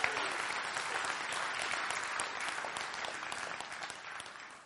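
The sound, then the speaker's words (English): An audience applauds the police officers and sheriff's deputies in attendance, with dense, steady clapping that holds for several seconds and then tapers off at the end. “By the way, we have wonderful policemen and sheriff's deputies in our audience. We have a number of them. Let's have a hand for all of them. They are wonderful people.”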